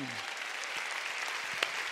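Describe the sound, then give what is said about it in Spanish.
A church audience applauding after a spoken declaration of faith: a dense, steady wash of clapping that holds at an even level throughout. “Dale a Dios un aplauso a su palabra”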